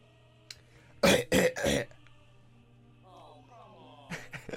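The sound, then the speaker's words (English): A person coughs and clears their throat with something stuck in it. Three harsh, loud bursts come in quick succession, then a short stretch of voice and more throat noises at the end. “I'm sorry. I just had something stuck in my throat. It's gone now, don't worry.”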